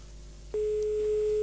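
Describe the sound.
A steady telephone line tone follows dialing a number picked at random from a phone book. It starts abruptly about midway and holds one unbroken pitch to the end, over a low background hum.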